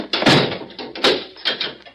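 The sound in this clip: A jail cell door being locked, heard as a few heavy clunks and knocks of the door and lock, spaced irregularly.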